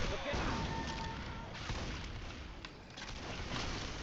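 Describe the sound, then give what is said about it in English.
Grenade launcher blast and surrounding combat in the video game Left 4 Dead 2, heard as a dense, continuous roar of booming, gunfire-like noise that barely lets up across the whole stretch. “You are too close to your grenade launcher blast?”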